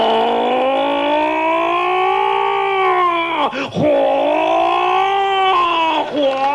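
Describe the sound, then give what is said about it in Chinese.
A human voice imitates a fire engine siren, producing a loud, sustained wailing tone that swells and sags in pitch, briefly breaks off partway through, then resumes in a second long wail. “这救火车叫出的声跟救火的意思一样。嗯，比如说外边着火了，这救火车一开出来，”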